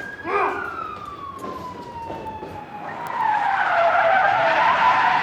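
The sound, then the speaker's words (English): Tyres screech as a car slides around a corner onto an urban street: a long, sustained squeal that falls steadily in pitch, followed by a louder, broad rushing noise as the car straightens out. “slides his car around a corner onto a smart, deserted urban street and parks curbside”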